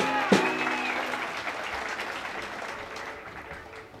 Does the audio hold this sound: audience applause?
yes